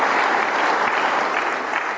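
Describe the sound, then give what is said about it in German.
Sustained audience applause during a speech on the economy and wage bargaining, a dense, loud, even wash of many hands clapping that holds steady throughout. “Applaus”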